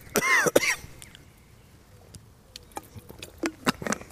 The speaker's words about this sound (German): Entschuldigung, ich habe mich verschluckt. Ich muss einen Schluck.